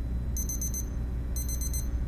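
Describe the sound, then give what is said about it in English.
An alarm goes off in two bursts of rapid, high-pitched electronic beeps about a second apart, over a low, steady background hum. “That's my alarm.”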